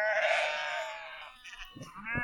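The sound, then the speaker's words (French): A lamb bleats on a hillside farm where a shepherd is gathering the flock. One long, quavering, high bleat comes first, followed by fainter, shorter sounds. “Je crois qu'il va falloir qu'on aille chercher mon petit agneau.”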